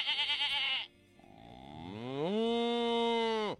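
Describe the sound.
A bull lowing: a long, loud moo that rises in pitch, holds steady, then cuts off, preceded by a brief higher, wavering animal call.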